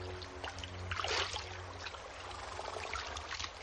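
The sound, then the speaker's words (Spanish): River water pours and trickles as a woman fills bison-gut bags on a prairie riverbank in a 1990 western film. It is a steady, gentle watery rush with a slightly fuller splash near the middle. “John se sienta sobre un tronco mientras ella recoge agua en bolsas de tripa de bisonte”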